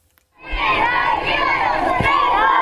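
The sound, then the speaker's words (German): Children shout and cheer in a crowd welcoming the Pope on his arrival at Larnaca airport in Cyprus. After a short quiet start, a loud, sustained chorus of high voices fills the rest of the moment. “Es ist ein herzlicher Empfang. Wir lieben dich, rufen Kinder bei der Ankunft des Papstes am Flughafen Larnaca bei Nikosia.”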